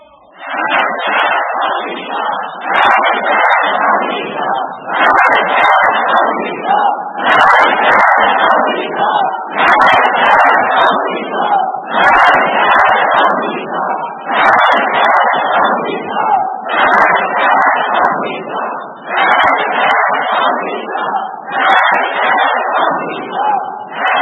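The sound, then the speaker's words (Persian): An Iranian crowd chants the slogan "Death to America" in unison, with loud, massed shouts repeating in a steady rhythm of regular bursts throughout. “و بدانید و این را بدانید که این شعار شما، مرگ بر آمریکای شما، این فریادی که ملت ایران میکشند”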